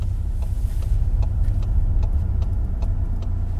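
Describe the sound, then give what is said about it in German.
A car engine rumbles steadily and low as the car drives onto a customer parking lot and parks, with faint, regular ticking over the rumble throughout. “fahren wir hier doch mal drauf und parken hier mal so ganz galant.”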